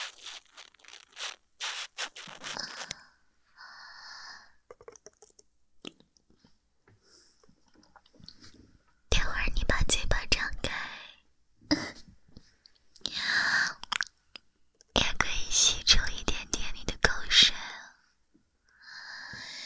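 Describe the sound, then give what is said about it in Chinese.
Wet squelching and crackling as water beads are pressed and soaked into a sponge, coming in several loud bursts separated by quieter, sparser squishes. “啊，你听，这是我的吸水珠吸在海绵里的声音。”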